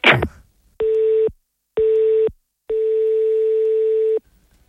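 A telephone ringing unanswered on the line: three steady electronic tones, two short and one longer, separated by silences, after a brief noisy burst at the start.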